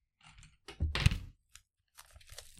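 A trading card pack's plastic wrapper is peeled open in crinkly, crackling bursts. A faint rustle comes first, then a louder tearing crunch in the middle, a single tick, and a softer crinkle at the end. No one speaks.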